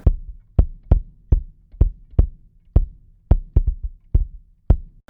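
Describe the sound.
Bass drum captured by an AKG D112 mounted inside the shell and angled toward the edge of the skin gives a run of many low, booming thuds with crisp attacks and short decays, some strokes doubled in quick succession, in a steady groove.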